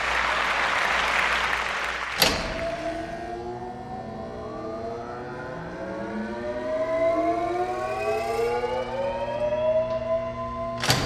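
A live studio audience's applause bursts out at the start, then cuts off after about two seconds as layered, siren-like tones sweep slowly upward in pitch and hold loud to the end.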